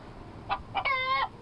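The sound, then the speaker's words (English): Chickens clucking: two short, sharp clucks followed by one longer drawn-out call with a clear, bright tone. The calls are fairly faint over a low background hiss. “We never had chickens. These are all your chickens.”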